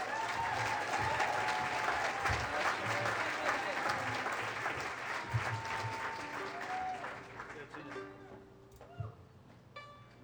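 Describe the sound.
A live music audience gives sustained applause to welcome back a singer. Dense clapping and crowd noise continue for several seconds, then thin out near the end as talking emerges.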